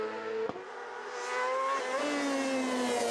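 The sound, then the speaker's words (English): Racing motorcycle engine revving hard during a road race as the rider leans on the edge of the tyre: a sharp click, then a loud, high, buzzing whine that swells and holds with a slightly sagging pitch. “that huge rev spike there. Yep, when he had it on the edge of the tyre.”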